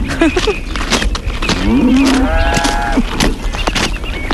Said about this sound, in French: Et nous sommes une ferme bio, producteur de lait. Nous avons 140 vaches,